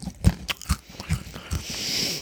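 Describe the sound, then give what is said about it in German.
Crackers being bitten and chewed: several crisp, crunchy bites in an uneven rhythm, followed by softer crackling and a steady faint hiss. “Also man isst es schon weiter, es ist schon nicht schlecht. Aber naja, hab's mal weggestellt, aber was ist, was ist denn eigentlich, wenn ich diese Cracker jetzt in die, in die Algenlimo reintunke?”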